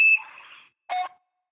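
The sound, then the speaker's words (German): A short, high electronic beep sounds as the voicemail tone after a mailbox greeting, clean and steady, followed by a few brief, quieter noises. “Bitte hinterlassen Sie nach dem Tonsignal eine Nachricht für.”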